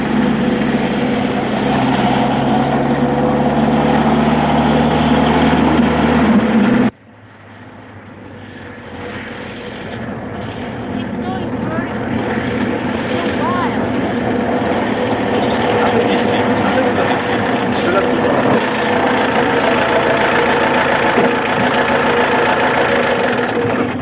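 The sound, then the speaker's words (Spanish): Jeep engine as the car speeds along a dusty dirt road through an arid rural landscape: a loud, rough motor drone that cuts off abruptly partway through, then swells back up and holds steady. “El coche se aproxima a gran velocidad levantando una nube de polvo en el camino.”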